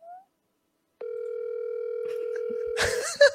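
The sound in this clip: A telephone line tone while calling someone: silence, then a single steady tone that holds for nearly two seconds. People start talking and laughing as it ends.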